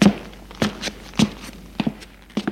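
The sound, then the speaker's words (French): Footsteps of a man climbing the stairs to the first floor of an apartment building: several soft, dull footfalls at an uneven pace, some single and some in quick pairs, with no talk. “entre dans l'immeuble. Et monte au premier étage.”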